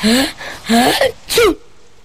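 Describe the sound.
An elderly grandfather sneezes three times in close succession, each sneeze loud and voiced with a rising then falling cry.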